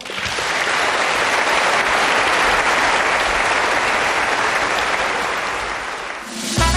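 Loud, sustained applause from a concert audience: thick, uniform clapping for about six seconds that dips briefly near the end.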